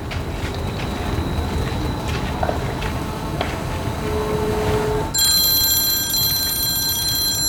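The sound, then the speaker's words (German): A phone ringtone sounds during a call, starting suddenly about two-thirds of the way in as a bright, high, bell-like electronic ring over a steady rushing background noise. “Zu wem passt dieser Klingelton wohl am ehesten?”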